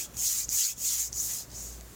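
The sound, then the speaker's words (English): Hands rub briskly together in a steady rhythm of quick back-and-forth strokes, each a dry, airy swish, heard alone without talk. “Cam, you trying to start a fire with like sticks or something there? Like you got no, that's wow. You can hear me rubbing my hands together?”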